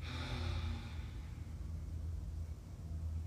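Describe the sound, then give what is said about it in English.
Deep breathing during a guided breathing exercise, an airy inhale and exhale loudest in the first second, then softer breath noise over a steady low hum. “Keep the breath. Deep inhale. Complete exhale.”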